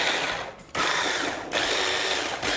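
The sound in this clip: A food processor grinds boiled chickpeas, its motor giving a loud, harsh whir that runs in several long bursts broken by brief dips.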